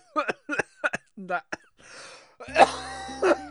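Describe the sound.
A person coughs after choking while reading a letter aloud. After a stretch of speech come two harsh, loud bursts of coughing.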